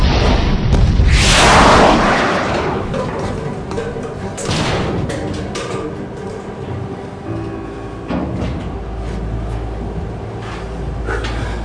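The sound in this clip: A missile launch in an Iranian film scene opens with a loud, booming whoosh. A heavy rumbling tail follows, along with a few further thuds and bursts of noise.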